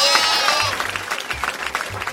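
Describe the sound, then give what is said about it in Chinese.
A lamb's soft, quavering bleat opens briefly, then gives way to a quieter rhythmic patter of sounds. “小绵羊啊，你唱的真是又小声又动听啊。”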